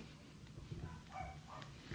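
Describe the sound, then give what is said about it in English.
A dog just woken up late at night gives a few faint, brief whimpering yips against a steady low background. “Yep, that's the dog just woken up. Thanks, Barry. Just woken the dog up.”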